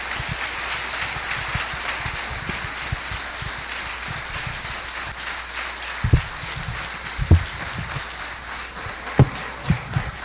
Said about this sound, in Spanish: Más fuertes esos aplausos, por favor